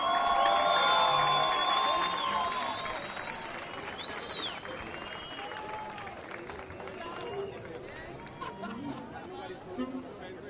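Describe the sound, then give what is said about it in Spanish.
Festival audience applause and cheering welcoming an orchestra onto the stage, loudest at the start and then fading over ten seconds into crowd chatter and voices. “Recibamos con un aplauso a la Orquesta Metropolitana, dirigida por el maestro Eddie Martínez.”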